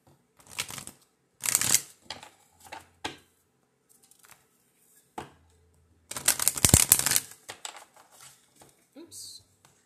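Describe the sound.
Oracle cards are shuffled by hand until one card pops out of the deck. Several short, crisp bursts of riffling and flicking are separated by brief pauses, with one longer, louder flurry near the end.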